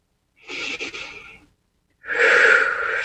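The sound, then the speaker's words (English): Two long, deep breaths, each a soft airy rush; the second is louder and fuller and is cut off at the end. “And take a couple of deep breaths here.”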